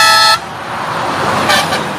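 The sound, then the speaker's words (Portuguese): Truck horns honking in a drivers' mass honking on a highway: a loud, tonal horn blast opens, then cuts to a rumble of road traffic, with a second brief horn burst later. “Mas vamos lá, aquele super buzinaço aí dos caminhoneiros.”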